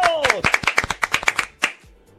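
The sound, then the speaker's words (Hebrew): Applause as people clap: many sharp, rapid claps in an uneven burst that holds fairly loud, then a brief lull and one strong final clap before the sound fades to near quiet. “חבר'ה, מגיע לו מחיאות כפיים 25 שניות!”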